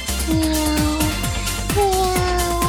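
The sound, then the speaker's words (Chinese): A person softly imitates a cat's meow in a classroom, making a slightly eerie sound. Two drawn-out, steady, tonal mews are heard, each sustained for close to a second. “尽管只是几声猫叫，可是猫叫本来就是我很喜欢做的事情哦。”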